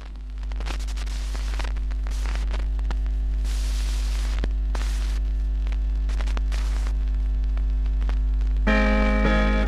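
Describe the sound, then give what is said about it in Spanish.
A record player needle is lowered onto a vinyl record, bringing steady surface crackle, hiss and a low hum with scattered pops, and faint tones coming in near the end. “Voy a bajar la aguja, ¡ay, me encanta!”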